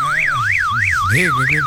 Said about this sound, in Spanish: ¿No suene toda la noche y el dueño aparezca a las 6 de la mañana? El dueño por ahí durmiendo en otro barrio. ¿Cómo hace la alarma, güey, güey, güey?